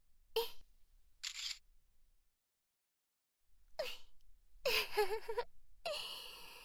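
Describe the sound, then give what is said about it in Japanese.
A camera shutter snaps as a photo is taken, a brief dry click standing alone, surrounded by soft breathy sighs and gasps. “んじゃ、可愛くなった先輩の写真撮っちゃいまーす。”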